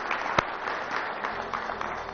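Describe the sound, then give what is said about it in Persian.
Steady applause rises from a crowd honouring the national volleyball team as they see them off for the night. The clapping is dense and even and stays moderately faint throughout. “فقط من خواهش می‌کنم از دوستان حداقل دست خیلی خوب به احترام بچه‌های والیبال کشورمون بزنیم برای بدرقه‌شون امشب.”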